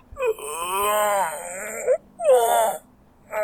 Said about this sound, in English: the father sat up like being shot out of a cannon and began to groan